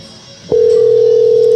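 A steady telephone tone sounds as a call is placed: one unbroken, mid-pitched hum that begins abruptly after a brief click and holds loud and level to the end.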